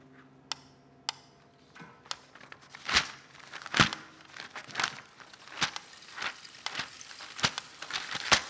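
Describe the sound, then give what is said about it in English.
Crinkling and handling of the paper of a crossword puzzle: many irregular crackly rustles and sharp crinkles, some louder bursts among softer rustling. “Wouldn't want to rip the crossword puzzle before you get a chance to try your hand at it.”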